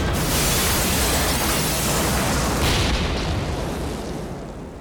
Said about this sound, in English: That isn't a very big bomb.